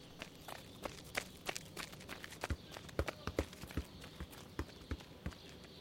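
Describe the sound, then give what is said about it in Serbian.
Faint running footsteps as an athletics team of throwers jogs warm-up laps at training, many quick, irregular thuds with no clear rhythm. “Ajde, ekipa na zagrevanje. Tri kruga, trčimo, krug, šetamo, ajde.”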